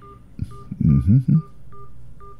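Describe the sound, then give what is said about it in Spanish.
Telephone keypad tones as a relative's phone number is dialed: a few short, clear beeps at the start and end, with a voice speaking between them. “Voy a marcar el número de mi familiar.”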